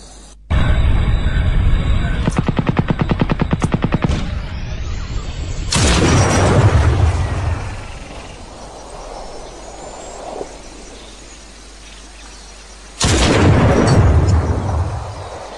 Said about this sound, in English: Alright, so that one was actually from, neither of us were correct, it was from Crysis. It was the Precision Rifle.